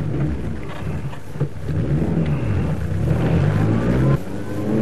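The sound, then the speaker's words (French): A Renault Dauphine's engine runs on the road from Ajaccio to Porticcio as the car is started and pulls away, giving a steady loud drone whose pitch shifts as it gathers speed. “Alors, je tourne la clé de contact et je démarre.”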